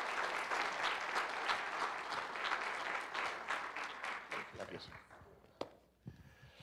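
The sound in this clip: Congregation applause welcoming guest speakers at a church morning service: steady, full clapping that thins out and fades after several seconds, leaving a few scattered claps and light knocks.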